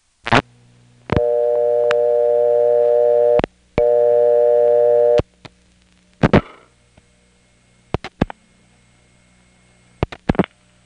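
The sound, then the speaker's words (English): Telephone exchange tones after dialing 7 plus 11 on a Clayton exchange line: a brief burst, then two long, steady buzzing tones, followed by a noisy burst and a few sharp clicks, with no talking. “if you dial 7 plus 11, this is what happens.”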